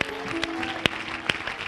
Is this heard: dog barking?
no